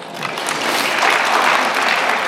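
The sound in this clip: Audience clapping during a political talk: a short burst of many hands clapping that swells slightly and stays dense and even to the end.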